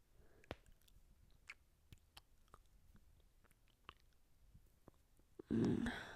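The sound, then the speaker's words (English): Soft, wet kissing smacks come at an irregular pace, faint and alone, before a louder rustling burst at the very end. “I want to kiss you. Can I kiss you? Come here then.”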